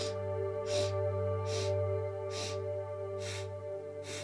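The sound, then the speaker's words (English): Four-count breathing through the nose, in and out in equal strokes. Several evenly spaced, soft sniffing bursts pulse at a steady rhythm, faint over a continuous low tonal background. “So we are going to inhale in 4 equal strokes through the nose, and we will also exhale in 4 equal strokes through the nose. So it sounds like this.”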